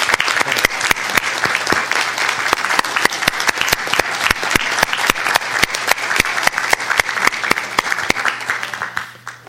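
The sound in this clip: An audience applauds to welcome a new school principal, crisp individual claps merging into a lively, even patter that holds for several seconds before fading away at the end.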